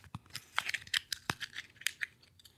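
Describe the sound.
A playing card torn apart during a close-up magic trick: many faint, short crinkling rips and crunchy snaps of card stock in an irregular series.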